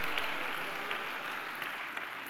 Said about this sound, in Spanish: Dale un aplauso a Dios, amado hermano.